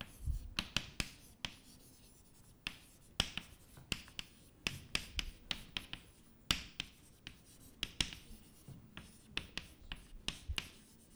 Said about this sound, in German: ich mache das vielleicht gleich weiter und schreibe unten drunter